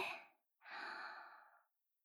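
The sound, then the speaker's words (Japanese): Slow, soft breathing out during a guided breathing exercise, a breathy airy exhale lasting about a second after a shorter fading breath, then quiet. “吐いて、吸って吐いて、吸って”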